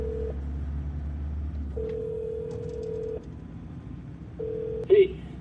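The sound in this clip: A phone dialing a call gives a steady electronic tone in a few separate stretches over a low hum, followed near the end by one brief, sharp keypad beep.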